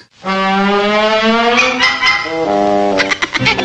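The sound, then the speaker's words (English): A buzzing motor in a cartoon: a droning, strongly harmonic hum that steps in pitch partway through, then breaks into sputtering bursts near the end. “Don't worry, it's the motor.”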